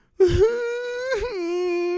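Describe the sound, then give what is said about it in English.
A voice imitates a neighbor crying and wailing out back in the evening: one loud, sustained moaning wail with a brief wavering break midway, heard alone. “our neighbor is in the back crying, like wailing. We can hear her just.”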